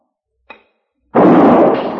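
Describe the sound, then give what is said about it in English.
A gunshot fired at a target in a radio drama: a faint brief tap comes first, then one loud, sharp blast whose rough, noisy tail lingers for nearly a second. “So you listen very carefully and shoot as quickly as you can.”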